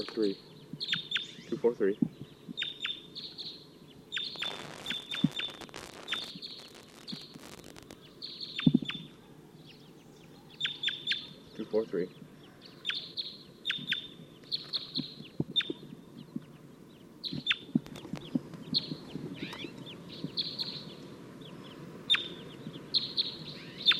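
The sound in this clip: A wild crossbill perched in a tree chirps its sharp, downward-sweeping call many times in a steady, repeated series over a low background rumble.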